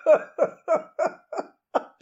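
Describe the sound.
A voice imitating a muffled cough made through a mouthful of crêpes: six short, voiced, throaty bursts in an even rhythm, heard alone.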